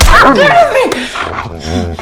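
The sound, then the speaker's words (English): A dog yelps and whimpers as it bites a woman's ruined right hand, high, wavering cries that rise and fall, broken by a sharp slap-like hit midway, then lower whining. “She wakes to the dog biting her ruined right hand. She strikes it with her left hand, knocking it away.”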